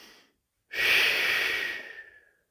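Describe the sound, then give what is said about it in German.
A cleansing breath in a guided breathing exercise: one long, loud, airy rush of breath that fades out gradually, preceded by a faint brief breath sound. “Reinigender Atemzug, ein und aus.”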